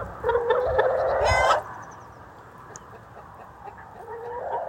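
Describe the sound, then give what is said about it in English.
Chickens clucking in their outdoor run beside the coop, which has an automatic door. A loud burst of clucking and squawking lasts about a second, then drops to quiet murmurs before more clucking rises toward the end. “having an automatic chicken door, which opens the coop so that the chickens can come out into the run”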